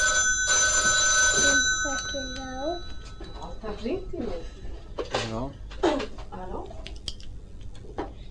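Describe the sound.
A telephone rings with a bright, metallic bell trill lasting about a second, then a voice speaks in short phrases with a few light clicks and taps in between.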